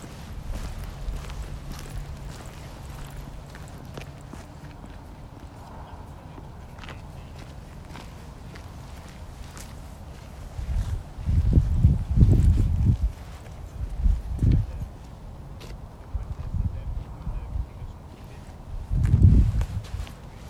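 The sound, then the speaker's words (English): Wind buffets the microphone during an outdoor listening walk. Low rumbling gusts swell in a few bursts over a quiet background of soft footsteps. “So you hear wind,”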